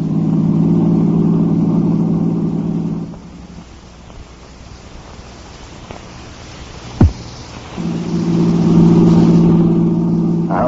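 A car engine accelerating during a tense drive hums with a steady harmonic drone, fades to a quieter rumble, gives one brief sharp thump, then surges back strongly.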